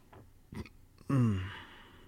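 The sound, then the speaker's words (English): A single loud burp with a low, falling pitch, preceded by a couple of brief, fainter breathy sounds. “Oh, sorry for the burping. I normally don't burp on the show.”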